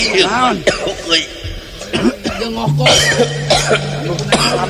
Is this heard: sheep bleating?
no